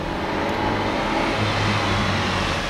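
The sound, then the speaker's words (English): A car engine accelerates on a lonely road through the Alleghenies: a dense, steady roar with a low rumble underneath, loud and unbroken, with no voices. “I stepped on the gas like a shot.”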